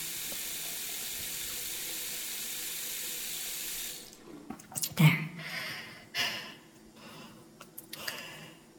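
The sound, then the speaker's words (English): Hands are washed under a running tap: a steady, hissing stream of water that cuts off after a few seconds, followed by a gasp and someone talking. “Daddy would want me to wash my hands.”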